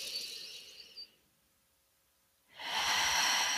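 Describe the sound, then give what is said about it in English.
Slow, deep belly breathing: a long, soft, airy breath, a quiet pause, then another long breath. The breathing is faint and steady, with no talking. “take a deep breath. So start with your belly. Inhale completely. And then exhale. Do that again.”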